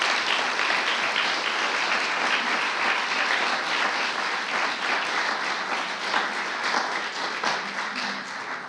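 Audience applause welcoming a group of women to the stage at a morning event: steady, loud, dense clapping that holds an even level throughout, with no talk over it.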